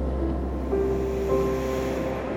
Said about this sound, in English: find the calming rhythm of the waves